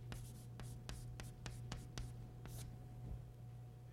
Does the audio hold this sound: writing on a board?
yes